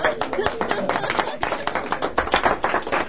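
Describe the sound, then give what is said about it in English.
A round of applause breaks out, many quick crisp hand claps in an uneven rhythm while voices keep talking over the clapping. “round of applause.”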